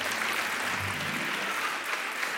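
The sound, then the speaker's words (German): Applause breaks out for the audience at a quiz show, a thick, steady roar of clapping that stays loud and even from start to finish. “Applaus für das Publikum! Ihr seid so toll!”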